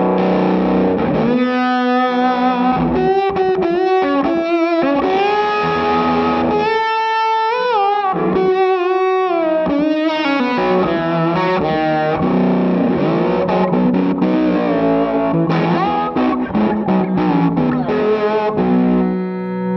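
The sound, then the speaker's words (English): Electric guitar played through a Kingtone Mini Fuzz germanium fuzz pedal, set for an epic solo or lead tone, with thick, saturated sustained notes. The phrases move up and down in pitch over about twenty seconds. “this is the Mini Fuzz by Kingtone, the Germanium version. And this is my main, as epic as a solo or a lead is going to get, it's that sound. So it sounds like this.”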